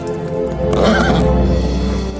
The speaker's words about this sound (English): Beauty, his coat shiny and sleek, gallops about the meadow where bundles of corn stand in higgledy-piggledy rows.